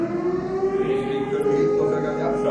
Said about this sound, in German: Wir haben hier die Sirene für den ganzen Landkreis. Also wenn irgendwo was brennt, dann geht hier die Sirene los.